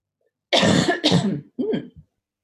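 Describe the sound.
Coughing and throat clearing from a tickle in the throat: three loud, rough bursts in quick succession, heard alone with no talk.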